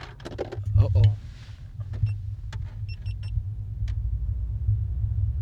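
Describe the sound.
Inside a car while driving, a steady low engine and road rumble runs throughout, with a few brief clicks and a voice speaking briefly near the start.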